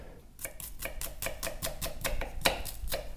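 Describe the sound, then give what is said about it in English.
A dull knife chops red onion in a steady series of many quick, even strokes on a board, each a crisp faint thud with a brief bright click. “Boy, that knife needs help. Oh, yeah. That's a little bit of red onion.”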